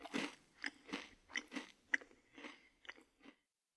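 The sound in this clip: Chewing of Valencian paella, a rice dish with half-cooked, risotto-like grains: a steady, even series of many soft, moist bites and crunches, fairly faint, with no talk.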